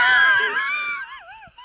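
A person's wheezing vocal sound during a baking competition: a strained, high, breathy wail whose pitch sinks and then wobbles unsteadily before trailing off, fairly faint and alone.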